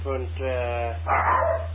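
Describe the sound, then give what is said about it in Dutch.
A dog frightened by fireworks gives a few drawn-out, tonal yelps followed by a rougher, noisier bark, all over a steady low hum. “Dus ja, de hond is een beetje bang voor vuurwerk, hè. En die slaat aan, joh. Dus sorry voor de overlast”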